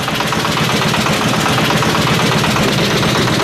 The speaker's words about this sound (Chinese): 听到这个渔船马达的声音了吗？